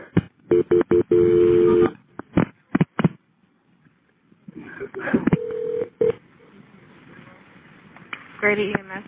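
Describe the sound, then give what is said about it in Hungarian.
A telephone dials a call to the hospital, a rapid series of keypad beeps followed by a pause, with more tones and talking later on. “Rendben, hívom a kórházat.”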